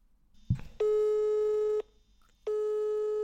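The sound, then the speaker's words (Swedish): A telephone ringing tone from an outgoing call: a brief click, then two steady, buzzy single-pitch tones, each lasting about a second, separated by a short pause. “Kan vi ringa Johanna? Ja, ja. Johanna jobbar på nedre tarm, kirurgi.”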